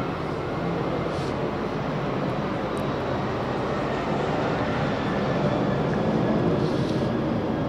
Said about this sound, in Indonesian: Loh, pesawat lewat ini tadi kan fakta yang tiba-tiba. Itu kita terlempar dalam fakta berhadapan dengan suaranya pesawat.